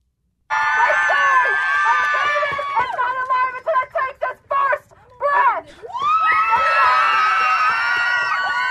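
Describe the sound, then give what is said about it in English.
A crowd at a political event in Tucson, Arizona cheers and screams loudly in sustained, high voices. Midway it breaks into short separate bursts, then swells again into a long, full roar. “And they all cheer.”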